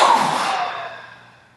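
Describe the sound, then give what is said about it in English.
A long exhale released after holding the breath and squeezing all the muscles in a yoga breathing set, a breathy rush that starts strong and fades steadily over under two seconds, with no talk. “Holding the breath, squeezing all the muscles. Squeeze, squeeze, squeeze. And then exhale.”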